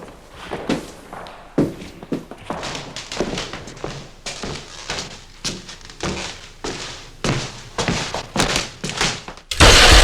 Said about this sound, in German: Der Kerl hat mich mit einer Taschenlampe geblendet. Und ich habe die Leiter umgestoßen.